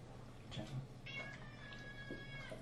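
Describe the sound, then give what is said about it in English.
A cat meows at home during a Thanksgiving dinner while it and dogs are fed bits of chicken; a few faint, high, drawn-out meows rise over steady low background noise. “Oh, that's a cat.”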